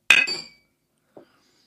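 Glasses clink together in a toast over a stirred summer drink: one bright, ringing chink that decays quickly, then a faint, soft tap about a second later.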